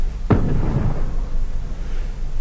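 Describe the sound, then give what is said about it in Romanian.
Cannon fire booms in a battle. A single sharp blast is followed by a low rumbling roll that slowly fades into a steady noise bed, with no voices. “E, după bubuitul tunurilor, bătălia pare să fie hotărâtoare.”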